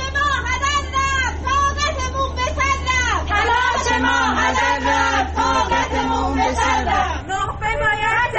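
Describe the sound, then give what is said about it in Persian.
Crowd of protesters in Tabriz shouting together, a dense, loud and continuous mass of raised voices with rhythmic surges of collective yelling over babble. “این صدای معترضان در تبریز بود.”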